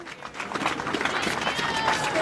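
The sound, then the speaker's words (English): Supporters cheer and clap outside the Ronald Reagan building, the shuttered aid agency headquarters, as a worker walks out with a bag and a large picture; steady crowd noise with mixed voices throughout. “Supporters cheer as a man walks out of the Ronald Reagan building with a bag and a large picture from South Sudan.”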